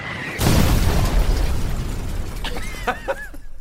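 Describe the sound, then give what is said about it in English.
An added explosion sound effect hits with a sudden loud blast, then a dense, roaring rumble of crackling debris that slowly thins and fades, with a few faint higher tones near the end. “Can you just say it again? And then we will in post add something blowing up.”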